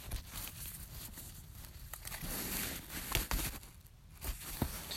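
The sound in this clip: Playing cards being shuffled, with some shooting out of the deck: faint, papery crackling and riffling throughout, broken by a few sharper snapping bursts.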